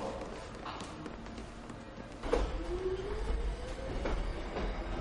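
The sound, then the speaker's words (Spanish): A subway train passes with a low rumble that swells partway through, joined by a faint whine and light rattling clicks, at a quiet level overall. “En un plano fijo, pasa el metro con su contraste de luz y sombra.”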